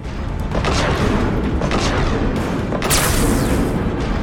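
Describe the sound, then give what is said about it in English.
A heavy autocannon firing in a video game produces a loud, dense, unbroken barrage of booming shots, with a few sharper bursts standing out and no talk over it. “So that's the sound of the heavy autocannon.”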